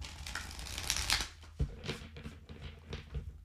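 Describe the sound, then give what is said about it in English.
A deck of playing cards is shuffled and handled, giving quiet, papery riffles and flicks in a series of short rustling bursts with a few sharper snaps. “Okay, I'm gonna pull a card. If you guys are watching on YouTube, this is what the deck looks like.”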